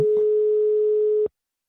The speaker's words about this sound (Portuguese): Tá chamando.